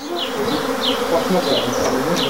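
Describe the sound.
Honeybees kept on a homestead vegetable farm buzz steadily, many overlapping wingbeats forming a continuous drone with faint higher whines drifting in and out, and no voices.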